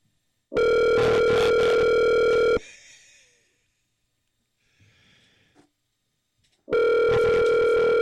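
Telephone ringback tone while placing a call: two loud, steady rings of about two seconds each, with a quiet gap between them holding only faint soft noises.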